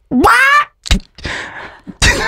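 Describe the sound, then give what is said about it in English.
A person's voice imitates a seagull with one loud, rising, nasal squawk, followed by a few other brief noisy sounds. “That's a seagull.”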